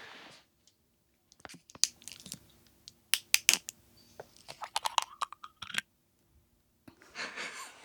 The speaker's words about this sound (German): So, jetzt nochmal hier ein Öffnen der Wolwig-Flasche.